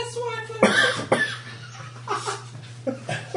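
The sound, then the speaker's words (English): A gaunt man at an inn bar coughs into a handkerchief: several muffled, uneven bursts of coughing, moderately loud, with some voiced, throaty sounds between them. “He pulls out a handkerchief from his pocket and starts coughing into it.”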